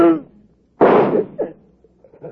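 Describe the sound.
A single sharp gunshot bang in a 1951 radio crime drama, loud and abrupt, with a short decaying tail. A voice speaks briefly just before it, and short vocal sounds follow.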